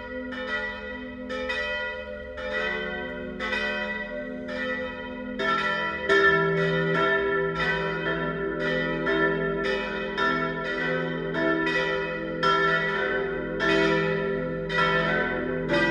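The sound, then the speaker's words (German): Noon ringing of church bells at a parish and pilgrimage church in Biberbach, Bavarian Swabia: several bells sound together in a dense, continuous peal, growing fuller and louder about a third of the way in. “Das Mittagsläuten kommt heute von der Pfarr- und Wallfahrtskirche St. Jakobus, St. Laurentius und Heiliges Kreuz im bayerisch-schwäbischen Biberbach.”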